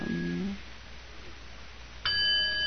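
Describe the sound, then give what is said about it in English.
A single bell rings during a weekday morning service, struck once near the end and sustaining a bright, clear tone with shimmering overtones. Before the strike there is only a low, quiet background. “we have shorter morning services during the week, and when you hear this bell, everybody sits down.”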